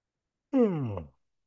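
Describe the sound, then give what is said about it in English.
A yawn during a shamanic group session: a single voiced exhale, under a second long, that slides steadily downward in pitch and fades out, heard alone in silence. “And here comes the first shamanic yawn.”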